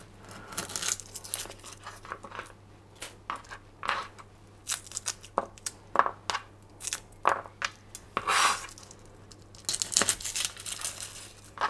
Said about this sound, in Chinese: 大蒜的话，先把它掰开来。